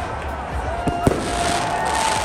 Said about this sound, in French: Les feux d'artifice, la République.